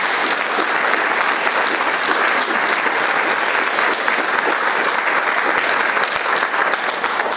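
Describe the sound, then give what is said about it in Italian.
Audience applause at a public talk and book presentation, dense, loud clapping from many hands that stays steady and even for the whole stretch, with no voices over it. “io mi interromperei con un applauso a Carlo per quello che ha detto.”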